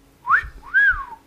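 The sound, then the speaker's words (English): A two-note wolf whistle in a film scene: a short rising note, then a longer note that swoops up and falls back down, loud and clear over a low, steady hum. “You managed to kill the big bad guy with a wolf whistle.”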